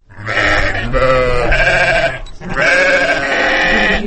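Sheep bleat loudly while being driven out to pasture across white snow in a village of the Chong Alai region: two long, sustained bleats separated by a brief pause, with no talk.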